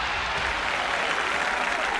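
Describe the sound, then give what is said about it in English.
Applause from a golf crowd at the Masters greeting a winning final putt: dense, steady clapping that holds at an even level throughout. “That's the applause that Hideki Matsuyama received following his final putt at the Masters.”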